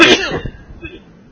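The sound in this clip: A person lets out one harsh, loud cough at the start. It fades into quieter, rough, breathy throat noise.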